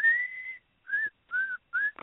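Whistled melody from a cheerful pop song: four clear whistled phrases, one long sustained note followed by three shorter ones, bright and steady in pitch, with no voices.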